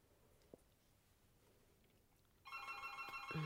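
A home telephone starts ringing after near-quiet room tone, with a loud, steady electronic ring that continues until the end.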